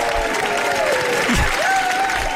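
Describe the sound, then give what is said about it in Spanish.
Audience applause welcoming a performer onto the stage: a dense, steady patter of many hands clapping that fills the whole clip at an even, fairly loud level. “Bueno, pues yo le agradezco mucho al público que me haya recibido con ese aplauso”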